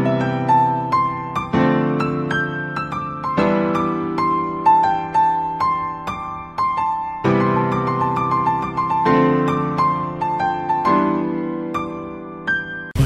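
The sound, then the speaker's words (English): Piano notes and chords from a jazz lesson, struck freely in any order. Full, rich tones ring out with sharp attacks and slow decays across many strikes in an irregular rhythm, with no talking. “But then, you play any of these notes in any order and it always sounds classy and rich.”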